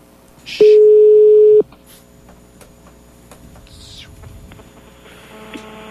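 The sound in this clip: A telephone ringing tone on an outgoing call gives a single steady pitched beep lasting about a second, then quiet line noise with faint scattered background sounds.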